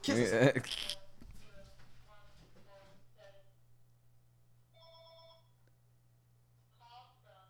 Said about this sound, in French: Pourquoi le téléphone sonne là, là?